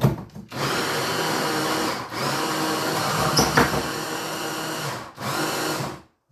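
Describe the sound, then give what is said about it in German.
A blender motor purées bananas with a loud, harsh whirr that runs in three or four stretches separated by brief dips, the longest holding steady for several seconds before cutting off at the end. “So, einmal wegpüriert.”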